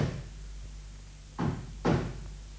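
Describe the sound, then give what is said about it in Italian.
Knocking on a door, two dull, solid knocks about half a second apart, standing out over a low, steady background hum. “Vado ad aprire. Picchiano.”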